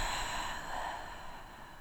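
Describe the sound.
A deep exhale through the mouth during a guided breathing exercise in a pregnancy meditation: a soft, airy, sustained breath, faint and steady, tapering slightly toward the end with no talking.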